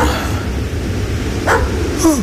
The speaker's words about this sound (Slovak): Je to pohraničník so psom. A pes šteká smerom k nám.